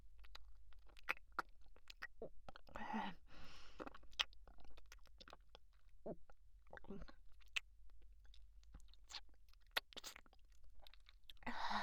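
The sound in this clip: Someone chewing food while eating a banana: quiet, irregular wet smacks and soft clicks of the mouth repeating many times, with no clear talk.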